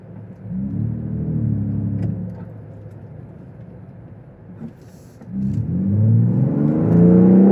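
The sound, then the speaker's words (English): A new turbocharged Ford Bronco's engine revs as it accelerates, a deep rumble that surges, eases off, then swells again louder with climbing pitch toward the end. “Wow. That sounds like a GT40. Did you hear that? That was great.”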